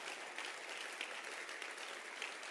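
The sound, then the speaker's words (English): Applause for a choir during a church service: steady, even clapping with no pauses, faint throughout. “Clap your hands for the choir, the shepherds. Not just the choir, the shepherds.”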